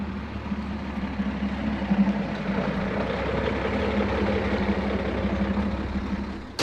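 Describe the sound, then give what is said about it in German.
Steady low engine rumble from two Land Rovers and a three-ton truck by a railway embankment runs throughout at an even, moderate level. “Die beiden Land Rover halten am Straßenrand in der Nähe der Signalbrücke. Der Dreitonner fährt weiter zur Predego-Brücke.”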